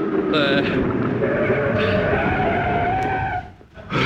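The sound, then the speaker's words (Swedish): A car brakes to a stop at the kerb on a city street, its tyres squealing in a long, steady, high skid for about three seconds before it cuts off abruptly. “Stanna vid trottoaren här borta nu, är ni snäll. Vid trottoaren. Nej, inte på trottoaren, vid trottoaren. Bromsa nu då, bromsa. Bromsa.”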